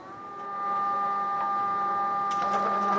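A 3D printer and plastic extruder recycling old plastic, such as soda bottles, in a fabrication lab in Oaxaca, Mexico, hums and whines steadily. It swells in the first half second, then holds level, with a few faint clicks near the end.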